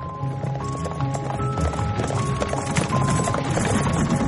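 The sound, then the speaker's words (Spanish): Clip-clop of hooves from a horse-drawn carriage leaving a town, a steady, even trot that holds at moderate loudness for the whole stretch, with faint sustained tones underneath. “Un coche de caballo se aleja de la población.”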